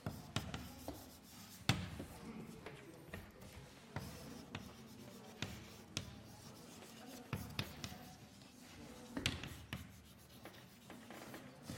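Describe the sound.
Writing on a board during a mathematics lecture on partial derivatives: irregular scratchy strokes and soft taps of the writing tool, fairly faint, with no talk.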